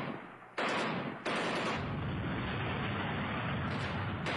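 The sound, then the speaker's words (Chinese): Gunfire and artillery fire from a battle southwest of Beijing in July 1937 form a dense, continuous roar. Two sharp surges come early, then the barrage stays loud and steady. “听到枪炮声的阮杰成”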